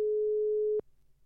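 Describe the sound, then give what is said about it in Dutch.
A single steady telephone ringing tone, heard while placing a call to a student about a prize, holds for under a second and ends in a sharp click, followed by faint low hiss. “En we gaan bellen, ja, hij weet het natuurlijk zelf nog niet, met uh, Jorrit. Dus eh, ja, ik hoop dat hij opneemt.”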